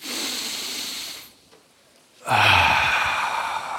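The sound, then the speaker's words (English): A crowd at a service exhales audibly from the stomach: two long, loud, breathy rushes of air separated by a short quiet gap. “This time, really bring your stomach out and exhale audibly, if you would.”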